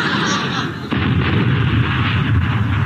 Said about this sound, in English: Stop! Cease fire! Stop pointing that 4-inch gun at me. It might go off. I told you it would.